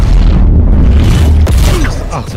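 A grenade explosion in the video game Valorant lands as a dense, loud boom with a sharp crack partway through, over steady low rumble and clatter that fades slightly toward the end.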